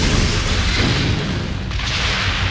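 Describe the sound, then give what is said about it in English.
Weapons fire as a spaceship shoots at another ship: a loud, sustained barrage of booming blasts merges into a dense, roaring wall of noise that runs the whole time without a clear break. “There's another ship, Father! It's firing on us!”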